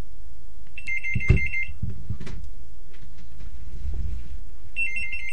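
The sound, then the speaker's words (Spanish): A telephone rings with a high electronic trill in two bursts separated by a pause, over low rumble and a few soft clunks. “Están llamando por teléfono.”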